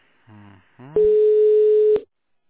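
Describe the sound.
Steady electronic telephone tone after a dropped call: one flat beep lasting about a second, preceded by a brief snatch of voice.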